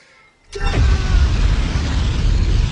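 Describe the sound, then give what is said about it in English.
Superhero laser eye-blast sound effect: a sudden loud whooshing burst after a moment of near quiet, then a sustained roaring rumble with hiss that holds steady to the end. “Here's one. This is the eye blasts of Cyclops.”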